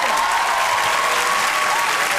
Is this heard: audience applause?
yes